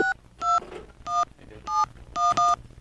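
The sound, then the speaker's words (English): Touch-tone telephone dialing before a call: six bright dual-pitch key beeps at an uneven pace, the last two in quick succession, over low background noise. “You want to dial up?”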